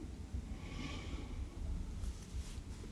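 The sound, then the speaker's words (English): A slow, deep breath drawn in during a guided relaxation exercise, heard as a soft, faint airy hiss that lasts a few seconds with no talking over it. “Let's start with just a couple of deep breaths in together. A big breath in”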